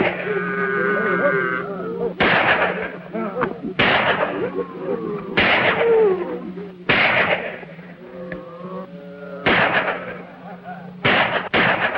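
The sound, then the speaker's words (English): Gunshots fired from inside a cabin during a shootout with cattle rustlers: a series of sharp, loud cracks spaced one to two seconds apart, each with a brief ringing tail. “The gunfire is kept up from within the cabin.”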